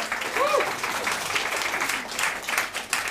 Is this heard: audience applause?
yes